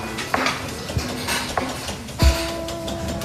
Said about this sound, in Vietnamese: Và đây là nhà bếp và lò nướng bánh.